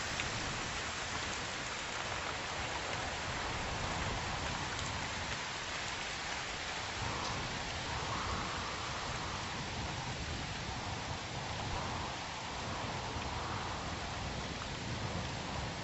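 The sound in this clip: Steady rain falls in a storm, a dense, even hiss of drops that holds at the same level from start to finish with no voices.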